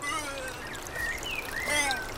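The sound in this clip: A small brook gurgles at the foot of a slope below holm oaks, making a soft, steady trickling wash with scattered high bird chirps over it, faint throughout.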